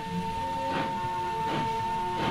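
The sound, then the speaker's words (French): A night train travelling to Verona gives a steady rumbling hum with a tonal drone, and three evenly spaced swells of rail clatter roll through it. “Nous laissons nos malles dans un entrepôt et partons à la gare prendre un train pour Vérone. Il n'y a plus qu'une seule place de libre.”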